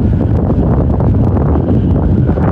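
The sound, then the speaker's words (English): Wind buffeting a microphone on a breezy day: a loud, continuous low rumble with a rough rustling texture that holds steady without pause for the whole clip. “Bit of wind, you can hear that”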